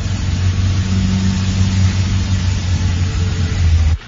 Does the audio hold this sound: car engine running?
yes